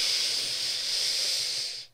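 A deep inhale during a breathing exercise, heard as a steady airy hiss that holds for about two seconds and then cuts off.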